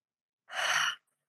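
A single deep breath, heard as one soft, airy exhale lasting about half a second, alone and followed by silence.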